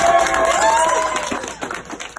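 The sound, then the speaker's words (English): Hospital staff lining a hallway cheer and clap as a patient is wheeled out of the ICU; a rising shout opens over loud crowd noise, which thins into scattered claps and fades. “And then wheeling him down the hallway, lined with cheering staff, recorded here by the hospital.”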